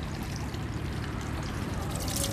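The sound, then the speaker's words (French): Pure water is poured once over a left hand during ritual hand rinsing. It makes a continuous, splashing trickle that stays fairly even from start to finish. “On verse une fois comme ça sur la main gauche.”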